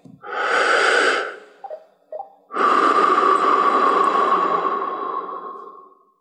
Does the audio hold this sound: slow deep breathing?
yes